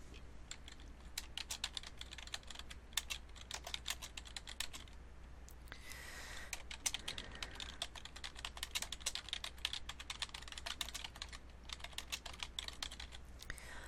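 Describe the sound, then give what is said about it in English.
Quick typing on a computer keyboard as a welcome message is entered, with many rapid, faint key clicks in a steady, uneven patter and no voices. “I'm just gonna type in a welcome.”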